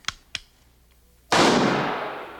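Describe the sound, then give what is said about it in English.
A muzzle-loading rifle fires in a shooting contest: two short sharp clicks come first, then a single loud blast follows with a long, slowly decaying rumble. “This one's dead center, too. You'll have to fire another round.”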